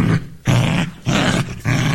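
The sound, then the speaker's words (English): A dog growl sound effect: loud, rough rumbling in several sustained bursts separated by brief pauses, with no voices alongside. “Good, that was a dog. I'll let you into a little secret. It wasn't actually a real dog, it's like sound effects and stuff.”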